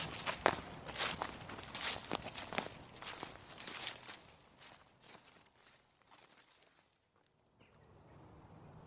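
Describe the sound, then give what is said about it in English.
Footsteps walking through woods beside a stream, a steady run of rhythmic crunching steps, loud at first and fading gradually quieter until near silence toward the end. “So we'll just dive around the edge a little bit and then walk alongside the stream”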